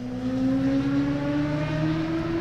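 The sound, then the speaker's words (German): Motorcycles run timed laps on a test track at a former airfield on a sunny Saturday. A steady, loud engine drone holds throughout, its pitch climbing gradually. “Er steht auf dem ehemaligen Flugplatz, der heute unter anderem Platz für eine Teststrecke für Autos und Motorräder bietet. An diesem sonnigen Samstag fahren die Motorräder wieder auf Zeit.”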